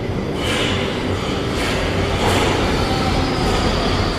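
A train arrives at an empty station platform, a loud continuous rumble and roar of rail cars with steady hiss, unchanging in level throughout and with no voices.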